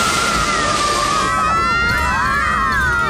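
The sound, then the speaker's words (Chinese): Water sprayed to rinse off syrup: a loud, steady, broad hiss that runs throughout, joined partway through by shrill, wavering high-pitched tones. “我们得赶紧把糖浆冲掉。哎呀，不够长啊，只能在这里喷水了。”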